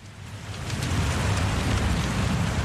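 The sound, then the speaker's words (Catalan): A relaxing ambience of a crackling fireplace with rain behind it: a steady, dense hiss over a low rumble that swells slightly in the first second and then holds even. There are no voices. “la primera opció és una llar de foc amb el so de la pluja de fons que sona així.”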